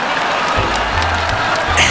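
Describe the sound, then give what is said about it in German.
Audience applause after a stage hypnosis show, a steady, dense patter of clapping mixed with crowd noise that swells slightly at the end. “Applaus für meine drei Kandidaten.”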